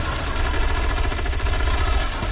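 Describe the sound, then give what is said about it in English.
Gunfire in a Halloween-themed shooter video game, a dense, continuous barrage of rapid shots with a pounding low rhythm throughout. “Oh, that thing exploded. That wasn't cool. I mean, that's what happens when I shoot things.”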